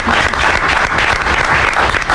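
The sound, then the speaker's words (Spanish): Audience applause for a comedian: dense, steady clapping that stays loud and even throughout, with no talk over it. “Yo creo que merece un aplauso eso. Eso merece un aplauso.”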